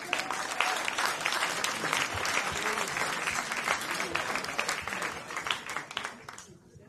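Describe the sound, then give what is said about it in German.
Dense applause from a crowd: steady, continuous clapping that stays loud throughout and tapers off in the final moment. “Dann ist das dein Applaus, bitteschön.”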